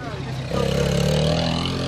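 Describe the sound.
A race car going past on its first lap: after half a second the engine note swells into a steady, droning roar, with voices talking over it.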